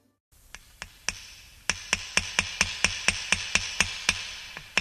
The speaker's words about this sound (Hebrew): החזיקו חזק ילדים, עוד כמה מסמרים, זהו גמרנו, הדפנות מוכנות